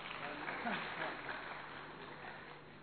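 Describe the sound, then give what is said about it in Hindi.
An audience at a talk applauds in a continuous, muffled patter of many hands, steady at first and then easing slightly in level toward the end. “तालियां।”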